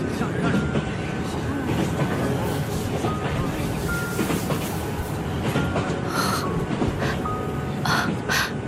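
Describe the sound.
Train approaching a station: a continuous rattling rumble with clicking wheel sounds and a few faint, higher tonal whines, steady in loudness throughout.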